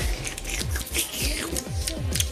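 Mixing a whisky, vodka and cola cocktail: many quick, sharp clinks and rattles come in an uneven run, with fizzing hiss in between.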